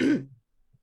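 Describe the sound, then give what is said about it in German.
A person loudly clears their throat in one short, rough burst that quickly dies away into near silence. “Ich räusper mich mal lautstark.”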